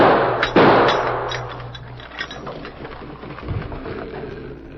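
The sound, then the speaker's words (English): A gunshot is fired to blow off a lock, a single sudden loud crack near the start followed by a rougher, noisy tail that fades. “Stand back. I'm going to shoot off the lock.”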